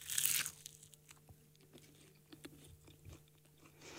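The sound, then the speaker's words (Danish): Biting into a crunchy McDonald's McToast with bacon gives a sharp crackly burst at the start, followed by faint, scattered crunching as it is chewed. “Den kommer i sådan en fin lille, jeg vil sige konvolut-agtig, hvor der står McToast på. Og jeg har simpelthen valgt det med bacon, så jeg håber, der er lidt crunch til det.”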